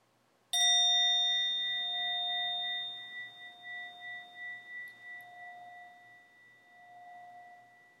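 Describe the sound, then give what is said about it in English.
A single bell struck once at the start of a quiet meditation, its clear tone ringing on alone and slowly fading, with a gentle wavering pulse as it decays. “sit comfortably, closing your eyes, and note the bell.”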